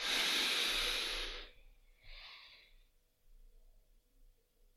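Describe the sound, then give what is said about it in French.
A slow, breathy exhale during a relaxation breathing exercise, a loud airy hiss lasting over a second, followed by a shorter, softer breath and quiet. “Vous soufflez pendant 6 secondes.”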